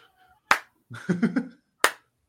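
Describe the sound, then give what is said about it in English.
Two sharp, dry hand claps about a second apart, made by a person demonstrating the heel clap and face clap that wrestling crowds use. Each clap is a single loud crack. “And that clap is for the face. You can tell that's a face clap.”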